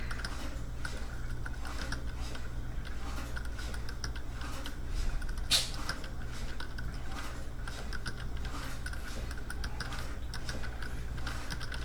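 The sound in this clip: Typing on a computer keyboard, with rapid, steady clacking keystrokes that continue evenly throughout at moderate volume.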